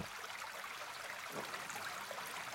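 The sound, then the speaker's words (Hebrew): A babbling stream gives a soft, steady, continuous rush of water with a gentle texture and no distinct events. “אני אוהב, נורא אוהב לנגן על הרב ככה עם צלילים של נחל.”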